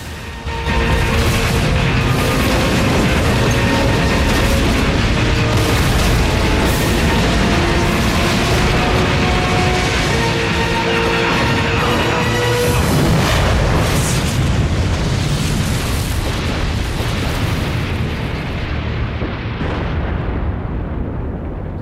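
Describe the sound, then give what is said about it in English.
A building entranceway explodes in a burst of rubble and sparks. A loud, dense, booming roar lasts throughout, and its texture shifts partway through before it eases off slightly at the end. “The entranceway to the building explodes in a cloud of rubble and sparks.”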